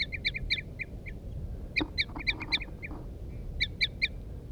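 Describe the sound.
Female and male wild birds answer each other with toop calls, the female's loud and the male's soft. Short, sharp, high calls come in quick bursts of several, with pauses between, over a low background rumble.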